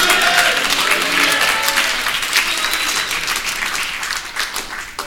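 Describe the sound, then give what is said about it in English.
A church audience applauds during a service, with thick, continuous clapping filling the whole stretch and easing off slightly toward the end. “If you are, give the Lord a clap offering and a shout of praise tonight.”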